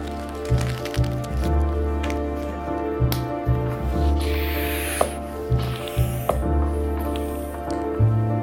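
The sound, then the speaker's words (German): Short hissing air bursts from a pump slightly inflating a new bicycle inner tube, repeating at uneven intervals over a steady tonal background. “Entnehmen Sie den neuen Schlauch aus der Verpackung und pumpen Sie diesen leicht auf, um ihn leichter montieren zu können.”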